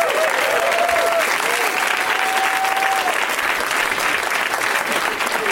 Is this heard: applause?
yes